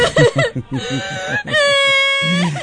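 A woman crying and wailing: choppy, wavering sobbing cries at first, then a long, sustained high wail that holds steady before breaking off, loud and alone.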